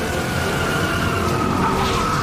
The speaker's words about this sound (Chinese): 晴风漂亮的漂移